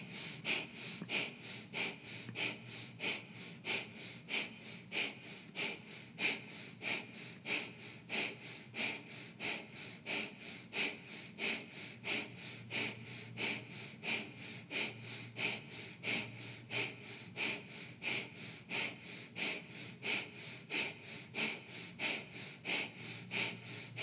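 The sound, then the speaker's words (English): Breath of fire breathing exercise: many quick, forceful nasal exhales in a steady, even rhythm, each a short soft puff, continuing without pause throughout. “Inhale, three quarter. Exhale, breath of fire. So it starts a little harder.”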